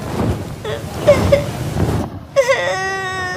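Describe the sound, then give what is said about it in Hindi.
A girl whimpers and sobs in broken, uneven bursts, then breaks into a loud, high, sustained wail for the last second. “इतना मत रो बेटी, इधर मेरे पास आ जाओ।”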